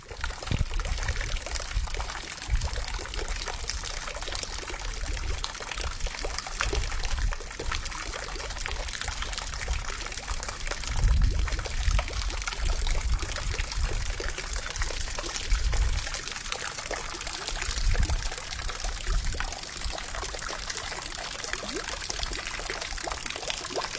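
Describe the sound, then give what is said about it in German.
Water gushes from a burst water pipe in winter as a continuous, dense, hissing rush. The flow holds steady for a long stretch, with a few brief surges in strength and no voices. “Es ist ein Wasserrohrbruch und hier eine Aufnahme davon.”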